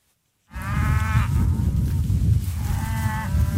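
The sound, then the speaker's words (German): Lowing calls from a herd of black Angus cattle and calves grazing on pasture. Two drawn-out, tonal calls rise above a steady, loud low rumble. “Der Besuch beeindruckt die Rinder überhaupt nicht. Ohne mit der Wimper zu zucken, grasen sie weiter, als Sebastiano Lasso sich den Weg durch die Herde bahnt.”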